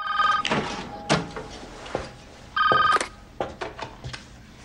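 A telephone rings in two short electronic bursts separated by a pause, with scattered clicks and thumps around them and no talk.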